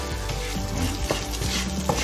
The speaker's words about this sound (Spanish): Vamos al arroz y le vamos a remover un poquito con la verdura esta posadita de arroz blanco, ¿eh?